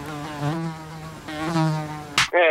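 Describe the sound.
A mosquito's buzzing whine, a harmonic drone that swells twice and then cuts off abruptly with a sharp burst, followed by a brief higher tone.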